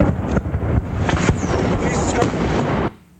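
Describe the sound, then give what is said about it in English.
A rocket-propelled grenade whizzes overhead amid mortar fire and combat. A loud, continuous noisy rush roars for nearly three seconds, then cuts off abruptly into near silence. “This is the sound of an RPG whizzing overhead before the tape goes blank as this reporter dives behind a Humvee.”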